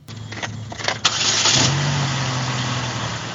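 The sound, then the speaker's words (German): An aging 2008 Saturn SUV with about 160,000 km starts up: roughly a second of rough cranking, then the engine catches with a sharp burst and settles into a steady, droning idle. “Ein Saturn, Baujahr 2008 mit knapp 160.000 Kilometern auf dem Tacho. Allein ihn zu starten, ist schon sehr aufregend.”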